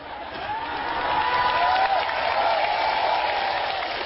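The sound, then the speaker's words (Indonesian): Applause from a crowd at an Islamic sermon gathering: a thick, continuous wash of clapping and crowd noise that swells slightly and stays steady throughout, with a faint voice-like tone rising through the middle. “Ora usah tepuk tangan.”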